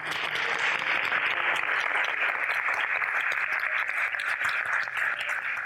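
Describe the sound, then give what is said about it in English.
A theatre audience at the AMI Theatre, Oxfordshire Science Festival, applauds the guests with a thick, even wash of clapping that holds at a constant, full level for several seconds. “before we go, I'd love you to give a huge round of applause and thank you to our guests.”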